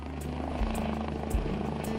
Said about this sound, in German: Der Rettungshubschrauber landet auf dem Wangerooger Flugplatz.